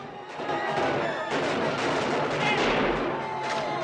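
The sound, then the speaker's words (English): Gunfire crackles through a film battle scene, with dense overlapping shots and blasts forming a loud, continuous barrage across the whole stretch, with no pause. “He's hit by a bullet and staggers, but then a second shot rips through him and he plummets to the ground below.”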